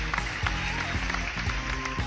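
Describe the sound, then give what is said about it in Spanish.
Applause played as a sound effect on a Spanish-language radio show, a dense patter of clapping with a few sharper bursts standing out, holding at a steady moderate level throughout. “Aplausos, por favor.”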